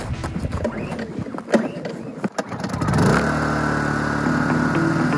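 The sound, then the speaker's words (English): A gas generator starts after some clattering handling noises, then settles into a steady, loud engine drone. “So we started thinking about generators. Only thing is, after doing a little bit of research, they're loud and they're stinky.”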